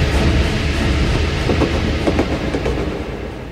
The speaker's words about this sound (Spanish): Toma el tren hacia el sur.